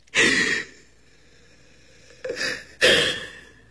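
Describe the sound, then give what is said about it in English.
A person takes deep breaths while being coached to calm down after feeling hurt. Three breathy, airy bursts are heard alone: a long one first, then after a pause two more close together. No one talks. “Come on, let's just breathe. Take a deep breath”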